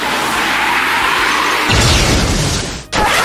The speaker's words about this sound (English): Shoot Wing Slash.